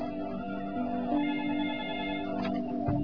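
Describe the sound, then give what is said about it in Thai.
A telephone rings with an incoming call, a steady electronic ringtone with bright sustained tones repeating evenly and fairly loud on its own. “ก็เดี๋ยวอย่างไรมีโทรศัพท์เข้ามานะก็เดี๋ยวจะขอรับโทรศัพท์ก่อน”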